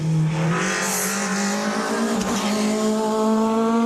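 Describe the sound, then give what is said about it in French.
A Peugeot 306 Maxi rally car warms up on a damp track, its engine holding a loud, continuous, buzzing drone whose pitch creeps gradually upward throughout. “c'est un pilote de rallye qui est un des rares possesseurs de 306 Maxi. Est en train de faire chauffer justement cette 306 sur une piste un peu humide.”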